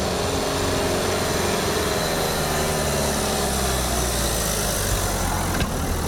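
A car engine strains up a steep street in Ankara, a loud, steady low drone that holds an even level throughout with no clear change in pitch.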